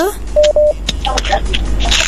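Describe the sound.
A telephone line connects for a radio karaoke call-in: two short, steady beeps, then voices talk over a thin, muffled line.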